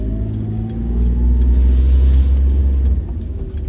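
A car driving on the road: a steady low engine and road rumble that swells slightly, holds evenly, and dips briefly near the end.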